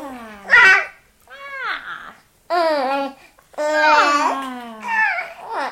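A baby babbles in several separate bursts of voiced syllables. The pitch slides up and down, some sounds are brief squeals, and there are short pauses between the bursts.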